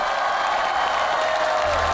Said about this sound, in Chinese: 来，掌声送给你们。